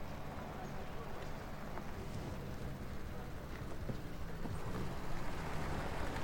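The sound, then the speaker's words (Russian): A black car and an escort bus drive along a road, giving a steady, broad rumble of engines and road noise that grows slightly louder toward the end. “По дороге едет черный автомобиль и автобус сопровождения.”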